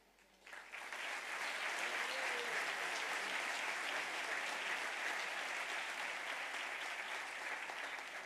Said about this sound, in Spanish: Y este es nuestro aplauso.